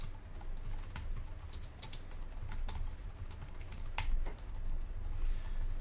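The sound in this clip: Code being typed on a computer keyboard: many rapid, uneven keystrokes clatter continuously at a fairly low level, with no talking.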